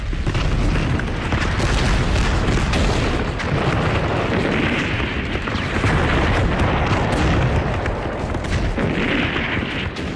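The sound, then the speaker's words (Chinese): An artillery barrage of over a hundred cannons opens fire in a dense, continuous roar of overlapping heavy booms and rumbling blasts that stays loud throughout, with no pause between the shots. “大大小小的炮100多门，统统架，攻击令一发，立即开火。”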